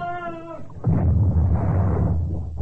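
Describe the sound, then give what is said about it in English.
Ship cannons fire a broadside on a calm sea: a short harmonic tone gives way to a sudden, loud, sustained roar of blasts that rumbles on for about two seconds. “Keep the gunners firing”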